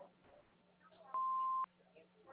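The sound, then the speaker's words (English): An answering machine beep sounds once as a single steady tone lasting about half a second. A faint low hum and soft background noise run before and after it. “If you know us, please leave a message after the beep.”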